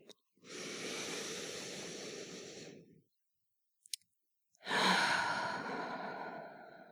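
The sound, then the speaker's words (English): Two long, deep, airy breaths separated by a brief silence and a small click, the second breath louder and fuller, with no talking. “Deep breath. Maybe you can breathe with me.”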